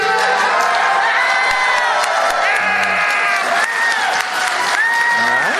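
A convention audience at PAX East 2022 cheers for Bulbasaur in loud, sustained applause and whoops, with shrill shouts rising above the crowd.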